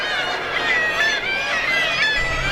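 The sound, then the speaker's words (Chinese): Seabirds calling at a cliff-edge nesting site, with many overlapping honking, nasal cries forming a continuous, busy chorus throughout. “但对于想要筑巢的海鸟来说，这里却是首选之地。它们选择在悬崖边缘建立家庭。”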